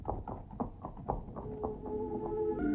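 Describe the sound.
Horse hooves clip-clop as the animal pulls a carriage along a road, with a steady, even beat of sharp knocks and a low rumble beneath them.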